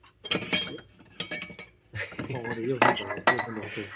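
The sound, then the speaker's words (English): Cups are handled, clinking and knocking against each other and other tableware in several bright, irregular bursts separated by short pauses. “Hey, you want to hear some cups?”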